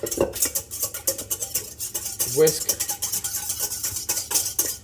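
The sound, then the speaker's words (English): Whisking ingredients together in a bowl for flatbread pizza. A whisk clinks and scrapes against the bowl in many rapid, uneven strokes. “All right, I'm gonna get a whisk. We're gonna whisk.”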